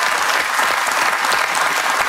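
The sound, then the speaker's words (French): Audience applause: dense, steady clapping sustained loudly throughout, with no break. “je sais qu'il y a des jeunes femmes qui vous regardent et qui vous applaudissent comme ça”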